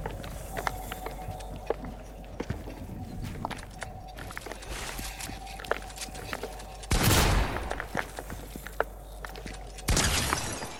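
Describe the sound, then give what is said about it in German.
Gunshots in a video game: many sharp clicks and pops scattered throughout, with two louder, broad noisy blasts later on. “ich schieße auf dich und du kriegst keinen Schaden. Du hast gegen die Wand geschossen. Nein, ich habe gegen dich geschossen.”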